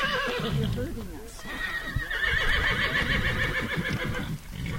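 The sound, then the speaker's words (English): Captured wild horses in crowded temporary corrals after a roundup, with mares and stallions penned separately. Repeated loud neighs and whinnies rise over shuffling hooves, while a voice talks throughout. “In the late afternoon, once gathering operations were over for the day, observers were escorted to the temporary corrals to take a look at which horses had been captured. Mares and stallions were separated into crowded pens.”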